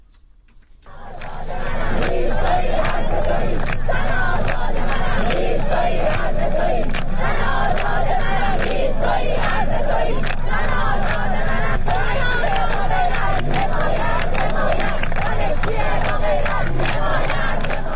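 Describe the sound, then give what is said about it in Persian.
Students at Islamic Azad University in Mashhad chant protest slogans: a loud, dense crowd of many voices shouting together continuously, with sharp rhythmic bursts running throughout. “بنابر گزارش ها دانشجویان دانشگاه آزاد در مشهد دست به تجمع اعتراضی زدند و شعارهایی در محکومیت فضای سرکوب سر دادند.”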